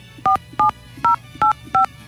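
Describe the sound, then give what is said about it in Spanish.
Telephone keypad tones entering a password: five short, clear two-tone beeps at a steady, evenly spaced rhythm, with no voices. “Por favor, ingrese su contraseña seguida de la tecla de número.”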